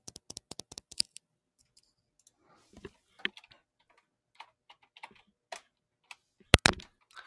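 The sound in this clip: Typing on a computer keyboard: many crisp plastic key clicks in irregular bursts and short runs, broken by pauses, with no talking.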